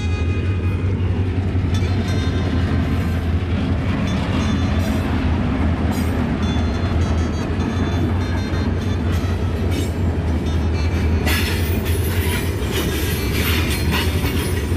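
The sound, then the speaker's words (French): Freight train wagons, some loaded with iron ore, roll past in a loud, steady rumble of wheels on rails with rhythmic clicking, and bursts of bright metallic squealing appear near the end. “De wagons là. Ah, je ne les ai pas comptés, mais on en voit beaucoup passer là.”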